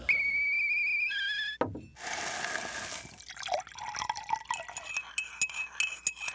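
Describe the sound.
Nescafé coffee is made: a bright, whistling tone, then a short gush of liquid being poured, then several sharp, ringing clinks of a cup and spoon.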